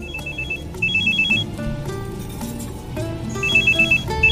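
Mobile phone ringtone for an incoming call: bursts of bright, high electronic beeping that repeat in short trains, with a dense, steady layer of lower sound running underneath throughout.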